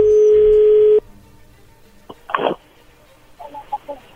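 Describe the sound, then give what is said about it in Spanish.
A telephone number is dialed to place a call. A steady dial tone sounds for about a second, then stops, followed by faint clicks and a series of short keypress tone bursts. “ahí se está marcando”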